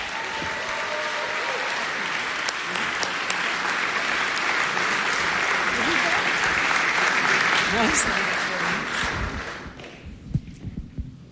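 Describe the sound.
Sustained audience applause welcoming two book authors back, a thick wash of many claps that holds for about nine seconds, then thins and dies away into a few scattered sounds.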